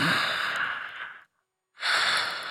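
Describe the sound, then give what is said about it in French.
Deep breathing of a man lying in bed: a long, airy breath of over a second, a brief silent pause, then a second full breath, soft and hissing. “Il ferme les yeux. Il respire profondément.”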